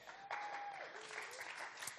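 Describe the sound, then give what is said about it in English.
Faint audience applause, a steady wash of clapping from a crowd at a live demonstration, runs evenly through about two seconds. “Round of applause for Chloe.”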